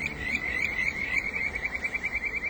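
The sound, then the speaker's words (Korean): Kajika stream frog singing in Misasa, Tottori Prefecture, Japan: a high, rippling trill repeated in quick pulses over a steady hiss like running water, with no voices. “聞こえますか? いい声が 歌ってるでしょう、カジカが。”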